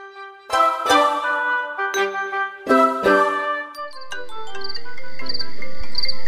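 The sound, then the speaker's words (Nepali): A WhatsApp incoming-call ringtone sounds on a phone, a bright chiming melody of ringing tones, then a swelling hiss with quick, repeated high chirps. “ओहो, वाट्सएपमा त मुस्कानले पो phone गरिन् त, उठाउनु पर्यो।”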